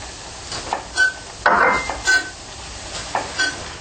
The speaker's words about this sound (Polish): Okej, olej już jest gotowy. Więc wrzucamy mąkę i robimy zasmażkę.